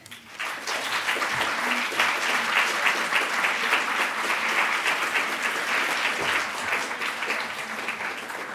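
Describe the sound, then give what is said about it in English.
Audience applause welcomes two speakers at a literature house event. Dense, steady clapping from many hands swells within the first half second and holds evenly to the end. “Please give them both a warm welcome.”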